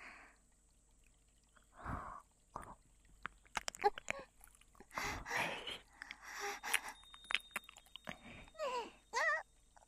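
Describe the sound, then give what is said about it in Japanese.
Close-up biting sounds: soft, moist bursts of nibbling and crunching, interspersed with breathy gasps, occurring in a few irregular clusters at fairly low volume, with no talking. “今度は噛んであげる。”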